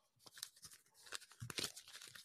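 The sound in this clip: A piece of paper rustles as it is waved up and down and pulled open. Soft, faint crackles and crinkles come in many quick bursts, uneven in rhythm.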